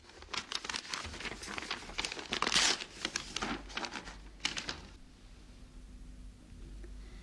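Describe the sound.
Paper crinkles and rustles as an envelope found inside a jewelry box is handed over and opened. Dense, crackling handling noise lasts about five seconds, then fades to near quiet.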